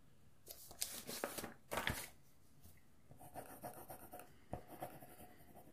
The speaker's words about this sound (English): I'm just writing that down, by the way.